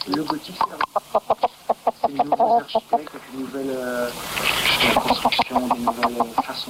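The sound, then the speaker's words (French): Hen clucking: a rapid run of short, mid-pitched clucks, then a longer drawn-out warbling cackle, then more quick clucks. “c'est intéressant ce que dit la poule, parce que ça contredit la thèse de Christophe”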